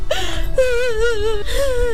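A person cries in a high, wavering, tearful wail, with three drawn-out sobbing cries. The middle cry is the longest, and each breaks off before the next begins.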